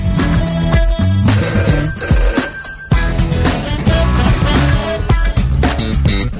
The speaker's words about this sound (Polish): I kolejny telefon, halo.